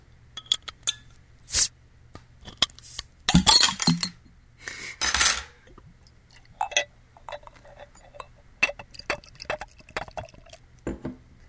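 Beer bottles cracked open, with sharp glass clinks, short fizzy bursts and dripping liquid, sparse and irregular against quiet gaps.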